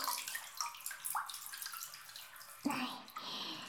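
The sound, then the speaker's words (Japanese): Hot bath water sloshes and trickles softly as a towel is floated on the surface and lifted from underneath. Small splashes give way to a brief louder gurgle near the end. “タオルをお湯に浮かべて、まん丸の手を作って下から持ち上げるっす。”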